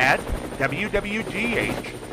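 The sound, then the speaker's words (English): A news helicopter flies overhead, its steady rhythmic rotor chop running throughout beneath a voice that rises and falls over it. “keep an eye out for the WWGH News Chopper flying high overhead”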